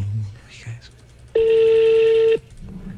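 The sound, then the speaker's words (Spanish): A single steady telephone tone, likely from a phone being dialed, holds at one even pitch for about a second. Low background noise sits before and after it. “Márquele, que yo sé que sí ha contestado.”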